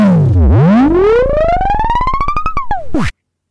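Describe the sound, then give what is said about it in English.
A loud, distorted tone from a Geonkick synthesizer dips low, then climbs steadily in pitch and breaks into rapid pulses. It ends with a brief falling tail and an abrupt stop. “This almost sounds like the Striders in Half-Life 2. Have you guys heard about Geon Kick? It's really a cool synthesizer, you know?”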